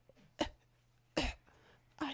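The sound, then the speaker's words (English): Three soft coughs from a dying woman, faint and evenly spaced, each a short breathy burst with quiet gaps between them. “who is softly coughing out her final few breaths”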